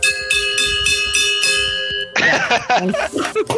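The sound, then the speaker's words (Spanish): A small bell rung to start the mass, struck several times in quick succession with sustained ringing tones, followed by a louder, busier stretch of sound. “la otra vez sonó bien chido la campanita, pero ahorita no puedo hacer que suene. Así, ah, miren, ya la encontré aquí está, miren.”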